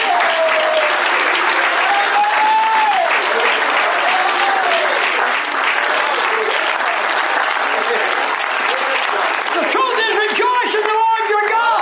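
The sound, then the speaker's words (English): A worshipping audience clapping their hands, loud and sustained for about twelve seconds, mixed with voices calling out over the clapping throughout. “The truth is, clap your hands, all you people.”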